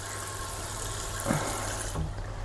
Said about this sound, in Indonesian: Udah nyala belum? Karena nggak ada air tuh sesuatu banget. Kita tes airnya. Yeay, alhamdulillah. Alhamdulillah, udah nyala.